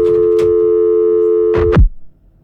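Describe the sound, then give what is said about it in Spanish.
A telephone dial tone after a dropped call on a phone-in line: a steady, loud, continuous hum lasts a little under two seconds, then a couple of sharp clicks end it and leave near silence. “No, parece que se nos fue la llamada.”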